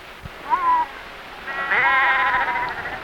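Sheep bleat: a short bleat, then a longer, wavering bleat that trails off, over faint background hiss.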